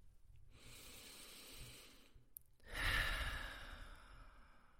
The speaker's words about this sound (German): nimm mal 1-2 Atemzüge mit mir